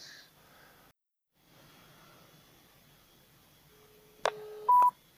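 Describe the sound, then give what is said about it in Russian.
Touch-tone telephone dialing: a couple of short, sharp electronic beeps near the end, after a quiet stretch of low hiss with a brief dropout. “Звоним Таребрина Татьяна Александровна.”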